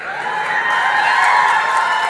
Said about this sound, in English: It's right in front of you, Anita, and it's cheering wildly for you.